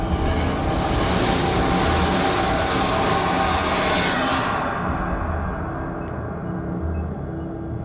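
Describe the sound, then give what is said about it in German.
A train approaches and rushes past very close in an unlit space beside a platform. A loud, steady roar and rumble carry a bright hiss that cuts off partway through, leaving a lower, fading rumble. “Ein Zug näherte sich und fegte haarscharf an mir vorbei.”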